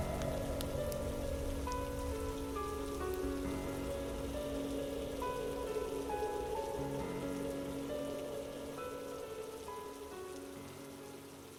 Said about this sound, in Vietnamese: mưa nãy giờ ướt hết người ngợm rồi